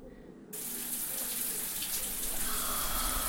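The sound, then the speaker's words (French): A salty shower switches on by itself: after a low hum, water abruptly bursts into a steady, loud, hissing stream that keeps running. “La douche salée s'enclenche toute seule sur mon pauvre corps meurtri.”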